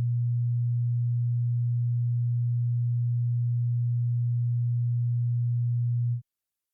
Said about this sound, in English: Sound K was 120 hertz.